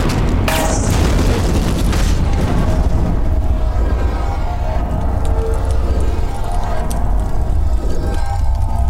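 Shot oxygen cylinders explode in a deep, loud blast. It becomes a continuous roaring rumble that fills the whole clip, with a sharp, bright crackle near the start.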